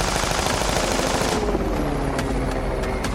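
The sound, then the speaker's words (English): Gunfire from a helicopter, with bullets striking the ground: a loud, continuous burst of rapid automatic fire runs throughout, and a few sharper cracks stand out in the second half. “Jump behind a stalled SUV as bullets hit the ground around me.”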